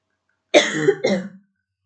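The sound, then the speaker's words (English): A short, dry cough from a dry throat breaks out as a quick double burst, the second weaker than the first, heard alone between stretches of silence. “I'm having a dry throat.”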